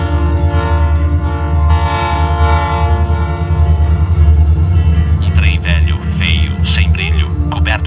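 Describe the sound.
Passenger train setting off, a steady droning rumble with sustained tonal layers throughout, while people talk over it in the later part.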